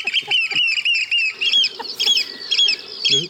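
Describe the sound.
An oystercatcher's display call: shrill, piercing piping notes repeated in quick, uneven bursts, loud and high, with a few sharper squeaky notes mixed in and no speech.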